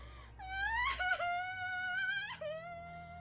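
A girl bursting into tears, wailing in long high sobbing cries whose pitch wavers up and down, loud and continuous with brief breaks between cries.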